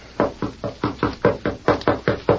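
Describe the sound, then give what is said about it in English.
Knocking on a door: many evenly spaced, firm knocks in a quick, steady rhythm, each a dull thud, with no voices. “That is Miss Abby's door, sir. I'll knock.”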